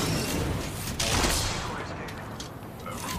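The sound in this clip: Gunfire in the video game Apex Legends crackles in rapid, overlapping bursts of shots, loud and dense, with a heavier blast near the middle before the firing thins out.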